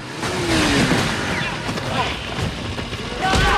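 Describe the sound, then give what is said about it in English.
Motorbike engines of several men riding out on their bikes give a continuous, rough mechanical drone that stays fairly even in loudness and swells slightly near the end. “Eddie watches from behind some bushes as the men fan out on their motorbikes looking for him.”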